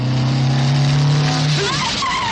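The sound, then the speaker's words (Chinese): A three-wheeled motorcycle speeds past on a city street and stops in front of an office building. Its steady, loud engine drone gives way near the end to a sharp, shifting screech. “一辆3轮摩托车飞驰着超过了他，停在左侧楼前。”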